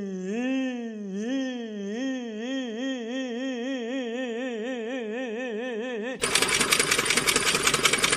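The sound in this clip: A voice repeats a disdainful 'yi' sound as a vocal trill exercise, holding a steady wavering pitch for several seconds before a sudden loud, dense burst of noise cuts in.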